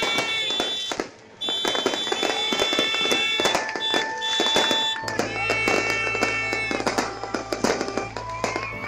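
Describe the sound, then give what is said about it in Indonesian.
New Year's Eve party trumpets blare back and forth in loud, overlapping sustained tones, layered with many sharp crackling bursts like firecrackers throughout. “Dan tentu saja yang tidak pernah ketinggalan adalah bunyi trompet yang saling bersahutan.”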